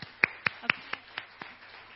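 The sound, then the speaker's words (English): Applause for event committee members, heard as about eight crisp, evenly spaced hand claps in a steady rhythm, faint and alone. “if you could please stand up and let us give you a round of applause, please.”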